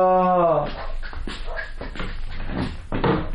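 A donkey in a radio drama lets out a drawn-out harmonic cry that sinks slightly in pitch, followed by a run of rougher, breathy bursts.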